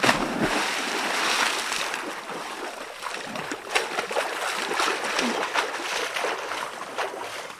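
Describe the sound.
A water splash sound effect: a steady, fairly loud rush of churning, splashing water that runs for several seconds without a break.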